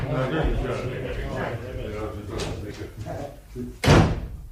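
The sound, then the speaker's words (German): A courthouse door slams shut with one loud, sharp bang near the end, after several seconds of people talking and shuffling. “Sie polterten hinaus, schmissen die Türe zu und gingen ins nächste Wirtshaus”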